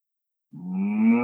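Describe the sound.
A cow moos at a field gate, one long, low, steady moo that starts abruptly after half a second of silence and holds loud and unbroken to the end.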